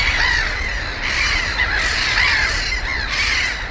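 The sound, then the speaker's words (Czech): Black-headed gulls call in a dense chorus near wetland: loud, harsh, overlapping cackling squawks that form a continuous wall of sound throughout. “tak vlastně čím dál více nabýval chorus vlastně toho racka chechtavého, kterého právě posloucháme.”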